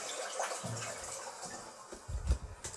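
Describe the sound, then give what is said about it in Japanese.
A toilet flushes with faint rushing and gurgling water, broken into soft surges, then a louder, deeper gush of water swells near the end. “ちょっとトイレの水を流すので、ちょっと音量注意で多分うるさいと思うので、すいません、流します。”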